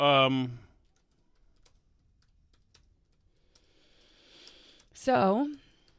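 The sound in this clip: Typing an email on a computer keyboard, with soft, sparse key clicks in a quiet stretch and a brief denser burst of tapping. Short bits of talk come before and after the typing.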